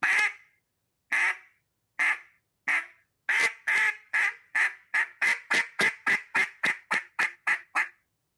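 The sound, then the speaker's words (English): A hen mallard duck gives a greeting call: a long string of many loud, nasal quacks, spaced widely at first and then coming faster and closer together. “And it's all it is, a hen mallard greeting sound. A hen mallard greeting, to some of y'all out there that's just gets going, is simply a string of quacks.”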